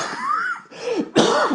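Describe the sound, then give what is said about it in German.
A person gives a held-back cough as three raspy, voiced bursts, the last one loudest. No other talk. “Ich wollte den Husten noch zurückhalten.”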